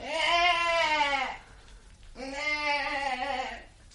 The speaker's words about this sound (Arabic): جدي، انا جدي.